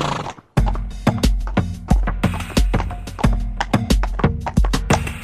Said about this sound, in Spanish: ¿Qué es eso en lo que viene sentado? Es un caballo, abuela.